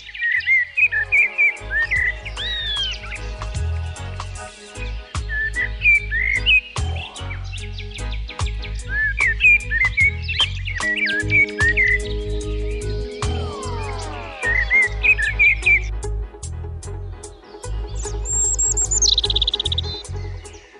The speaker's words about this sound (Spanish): Pero hay muchos más con nosotros, por ejemplo, el mirlo, también un pájaro muy acostumbrado ya a vivir con nosotros, que lo podemos ver muy de cerca.